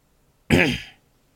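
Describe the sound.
One throat clearing brings up phlegm: a short, loud, rasping burst lasting about half a second, then fading, with no other sound around it.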